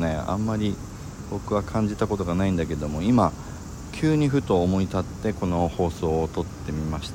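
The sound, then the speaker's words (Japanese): Cicadas drone outdoors as a faint, continuous high buzz under a man talking in Japanese, running unbroken through the whole clip. “セミの鳴き声とかなんかゴーっていう車の音とかうるさいかもしれませんけども”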